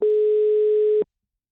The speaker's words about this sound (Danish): De er travlt lige nu i Nakskov.